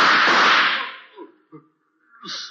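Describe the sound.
A gunshot in a radio drama goes off as a loud, sharp blast with a long decaying tail that fades over about a second. A few faint, softer thuds follow.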